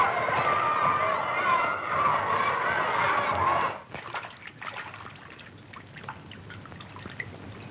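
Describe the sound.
Laundry being washed by hand: a steady rush of sloshing water for a few seconds, then a quieter stretch of scattered small splashes and drips.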